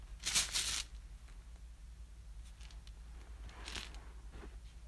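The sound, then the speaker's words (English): Dice rattle as they are shaken in a bag held close to the microphone: a loud, dense clatter early on, then a quieter burst later, with a few faint clicks between over a low steady hum. “Filled with dice. And now I'm going to shake it in front of my microphone until you tell me how much damage I deal.”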